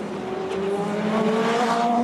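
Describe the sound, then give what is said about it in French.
Racing-car engine noise on track, with the white BMW number 20 and the red Toyota number 8 running nearby. A loud, steady, tonal drone holds for the whole stretch, its pitch climbing gently under a layer of hiss, with no voices. “Et là, voyons donc cette image. La BMW numéro 20 en blanc, la Toyota numéro 8 en rouge, un petit peu plus loin derrière.”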